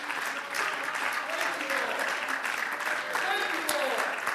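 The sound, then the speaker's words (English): A church audience claps hands in praise, a dense, sustained round of applause that holds at an even level throughout, with voices mixed in under the clapping. “Would you clap your hands to the Lord and give him praise?”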